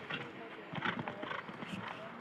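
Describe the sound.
Hoofbeats of a horse galloping in a show jumping round, a faint rhythmic clip-clop under a man's steady commentary.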